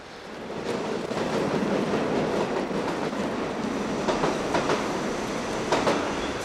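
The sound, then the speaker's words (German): An Intercity Express train pulling into a station platform: a steady, low rolling rumble with rhythmic clickety-clack of wheels over rail joints and a few sharper clicks rising above it. “Bitte Vorsicht auf Gleis 3. Es hat Einfahrt, der verspätete Intercity Express nach Hannover.”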